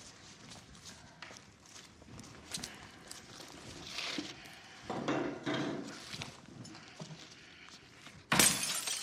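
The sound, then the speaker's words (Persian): Glass being broken: one loud, bright shattering burst near the end, after softer scuffing and knocking sounds. “مجبور بودی شیشه رو بشکنی؟”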